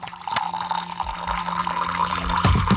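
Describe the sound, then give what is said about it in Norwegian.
Tea being poured and stirred, a steady trickle of liquid filling a cup with a few light clinks, heard alone. “Det noen som heller seg opp litt te. Rører litt.”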